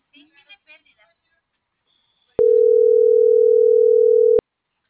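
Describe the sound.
Brief soft talk opens, then a steady single-pitch telephone tone sounds on the line for about two seconds while a number is dialed, unwavering and clear before cutting off.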